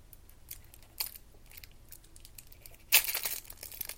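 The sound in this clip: A basketball card pack's wrapper crinkles and tears open: a brief rip early on, then a louder, longer tearing crackle toward the end.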